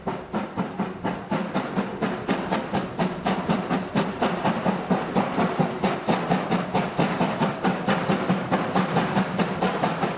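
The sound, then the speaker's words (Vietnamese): A steam train rumbles along railway tracks as it pulls out, with a dense run of regular, loud chuffing pulses over a continuous hiss that holds steady throughout. “một tiếng động chói tai vang lên, kèm theo tiếng đường sắt rung chuyển.”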